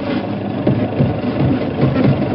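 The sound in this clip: Car engine running during a motor trip through the country, a steady low rumble with a faint mechanical hum that holds even throughout, with no talk over it.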